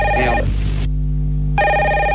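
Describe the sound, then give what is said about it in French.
A telephone rings with a bright, electronic trill, one burst fading, a short silence, then the ring starts again, loud and alone over a low steady hum. “Ah, en plus, il y a votre téléphone qui sonne.”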